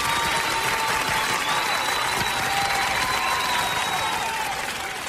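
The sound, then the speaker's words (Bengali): Audience applause after a prize presentation for the runners-up, dense and steady clapping that holds at an even loudness throughout, easing slightly at the very end. “দুরকম কথাতেই দর্শক ও শ্রোতারা খুব হাততালি দিল।”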